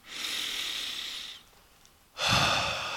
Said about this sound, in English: This morning, I invite you to take the breath with me